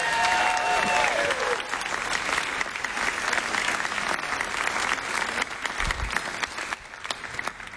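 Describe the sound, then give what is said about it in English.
Audience applause for a performer at a live music show: dense, steady clapping from a crowd that carries through the whole stretch, with a brief voice fading out at the very start. “Give it up one more time for Patty Larkin.”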